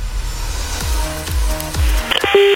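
Touch-tone beeps of a telephone number being dialled to call someone back: a few short electronic key tones near the end, the last held longer, over a low background hum.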